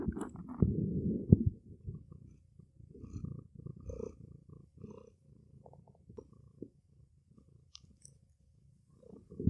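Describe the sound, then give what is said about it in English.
A cat purrs close up in a faint, low, uneven rumble that comes in soft pulsing bursts, with a few small clicks and gaps scattered throughout. “you might catch up some cat purring on your podcast.”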